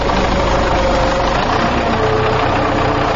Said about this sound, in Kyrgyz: Тракторду жарай деген камынып атабыз ушу.